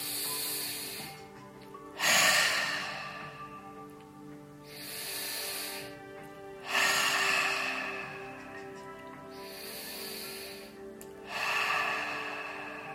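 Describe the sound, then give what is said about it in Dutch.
Slow, deep breaths in and out during a guided breathing exercise. Several airy breath sounds alternate between stronger and softer in a calm, regular rhythm, with no talking over them. “Maar even samen met mij diep in en uit adem.”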